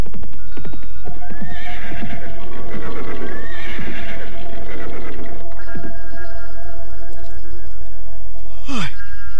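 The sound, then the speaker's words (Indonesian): Hoofbeats of a horse being ridden toward a hermitage clop steadily and densely, under a sustained tonal hum, and a sharp whinny rings out near the end. “Dan ketika derap kudanya semakin mendekat padepokannya, tiba-tiba saja ia menghentikan kudanya secara tiba-tiba.”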